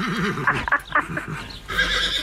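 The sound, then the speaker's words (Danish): A horse whinnies in a brief, wavering, quavering call, its pitch trembling up and down before the sound breaks into rougher snorting noise. “Ja, men kan du ikke bare komme med hest? Altså, nå står jeg her med hesten.”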